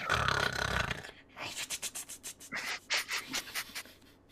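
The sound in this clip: A voice imitates snoring, producing many rapid, rhythmic rasping pulses after a louder breathy opening.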